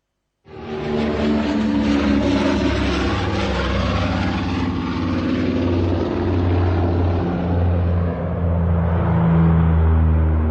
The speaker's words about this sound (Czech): Západní Berlín, letiště Tempelhof, září 1955.